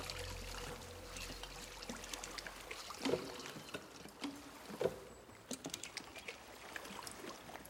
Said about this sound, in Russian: Девушка прислушивается и направляется к источнику звука. У берега о камни бьется пластиковая бутылка с привязанным бубенцом.